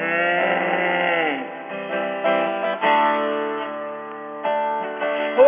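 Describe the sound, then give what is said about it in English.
A singer's voice imitates a cow's moo in a children's animal song: a loud, drawn-out, wavering tone that bends downward, then continues as a few shorter held notes, with no other sounds. “And a big to-do, the old cow just goes”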